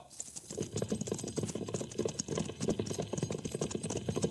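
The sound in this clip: A cavalry squad of lancers trots in a column of fours, the hooves making a dense, rapid clatter that rolls on steadily without a break, with no voices over it.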